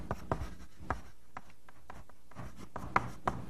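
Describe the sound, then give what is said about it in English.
Writing during a programming lecture on pattern matching and rule-based substitution: a sparse series of short, scratchy strokes, quiet and irregular, with no talk over them. “So I'll just write that here.”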